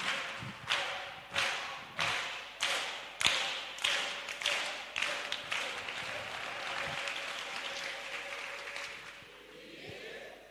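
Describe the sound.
A church audience claps for a clap offering during a service: a run of steady, rhythmic claps in unison, then dense, sustained applause that slowly fades out.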